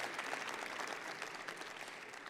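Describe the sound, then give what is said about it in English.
An audience claps steadily as volunteers come up from the crowd, the applause faint and unbroken throughout with no voices over it. “Y'all have to keep clapping because they're moving slow.”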